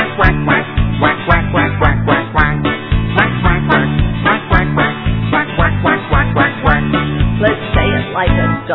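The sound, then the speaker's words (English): Voices imitate a duck's quacking in a cheerful children's morning song: many short rhythmic quacks repeated in a steady beat over continuous musical accompaniment. “Let's say it like a duck, shake your feathers. Quack, quack, quack.”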